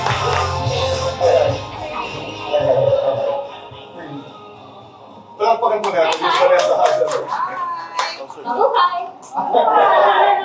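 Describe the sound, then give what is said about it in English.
Audience applause for Vanessa Hudgens as she is welcomed on stage at a live event. A person speaks first, then a burst of loud clapping follows with crowd chatter mixed in. “Right now, I'd like to welcome on stage global superstar, our very own. Put your hands together for Miss Vanessa Hudgens.”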